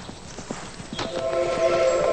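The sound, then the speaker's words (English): A ridden horse breaking into a gallop and moving off: rapid hoofbeats clatter in a driving rhythm, growing fuller toward the end over a steady background. “He rides off. As Charlie urges his horse into a gallop, Zach watches him go.”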